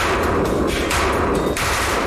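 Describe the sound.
Type 191 rifles fire during a test in a harsh, sandy environment, with loud, rapid bursts of gunfire that run almost continuously and are separated only by short dips.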